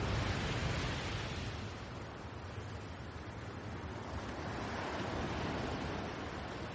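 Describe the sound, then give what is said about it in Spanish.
Ocean waves wash onto a sandy beach at night, a continuous, hissing roar of surf that swells gently and eases without distinct breaks or voices. “La noche cae y la espuma de las olas se vislumbra más claramente ante la oscuridad del océano.”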